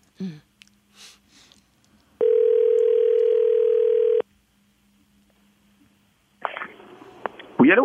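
A telephone dial tone hums steadily for about two seconds as a call is placed. After a quiet pause, a noisier tone with a few sharp clicks follows, and some brief faint sounds come before it.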